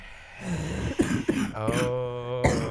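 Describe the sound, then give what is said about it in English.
People cough on purpose, as if they had croup, with a few sharp, harsh coughs and throat-clearing bursts mixed with rough voiced groaning, loud and raspy. “You can cough like you have croup. You can cough. You can sound horrible like we do.”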